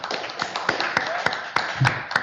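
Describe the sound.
Applause for the player of the week: a dense, steady patter of clapping, with a few sharper, louder claps standing out at fairly regular intervals.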